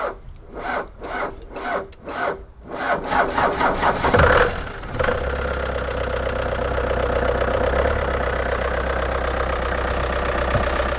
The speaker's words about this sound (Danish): Det er en dieselmotor. Ja. Som havde det svært ved at komme i gang.